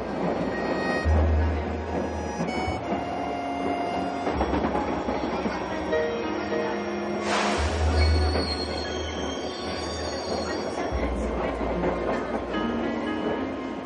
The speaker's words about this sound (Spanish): En un vagón de metro